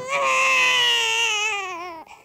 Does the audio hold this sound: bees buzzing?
no